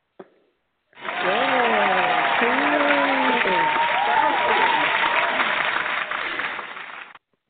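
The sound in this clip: Warm audience applause welcoming a guest author at a live show: after a brief click, loud sustained clapping swells in with voices whooping and cheering over it, holding for about six seconds before it tapers off.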